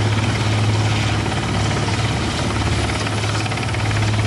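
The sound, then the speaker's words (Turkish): A helicopter drones steadily at a two-day search-and-rescue exercise simulating the evacuation of injured passengers from an airliner's forced landing in the Five Finger Mountains. Its rotor and engine make a loud, unbroken, low-pitched hum throughout. “Tatbikat uyarınca Türkiye'den destek istenmesi üzerine arama kurtarma uçakları, helikopterler ve termal kameralarla donatılmış insansız hava aracı bölgeye”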